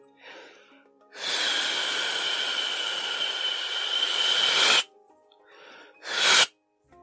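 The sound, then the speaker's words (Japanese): A person exhales fully as part of a deep-breathing exercise before meditation: one long, loud, steady breathy hiss of about three and a half seconds, followed by a short, sharper breath, with faint softer sounds around them. “こういったことがちょっと文章でわかりにくいんで、今やりますけど、吐き切る。”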